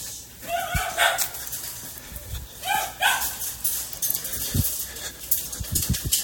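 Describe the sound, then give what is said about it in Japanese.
A dog barks as someone walks along a street: a few sharp, mid-pitched barks arrive in two short bursts over a low background of street noise and soft thumps. “何今のちょっと、あ、犬か”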